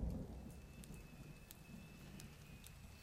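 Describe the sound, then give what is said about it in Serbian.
Rain falls steadily as a soft, even hiss with occasional sharper drop ticks, faint throughout and without voices. “Ova kiša pada li pada?”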